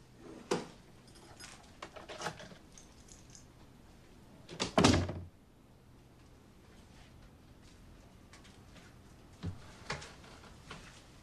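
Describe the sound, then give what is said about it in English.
An apartment door is opened quietly: a few soft clicks and handling noises, one brief louder thump partway through, then near silence before two more faint taps. “Sam quietly opens the apartment door and tiptoes in.”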